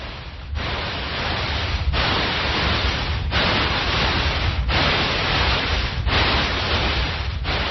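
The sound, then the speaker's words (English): Steady, loud static hiss simulates tinnitus noise, a broad rushing sound that is interrupted by brief, regular dips roughly every second and a half. No voices are present. “People with tinnitus hear a sound like this all the time.”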